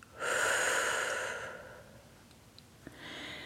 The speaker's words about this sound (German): Atme tief durch die Nase ein und blase die Luft durch den Mund aus.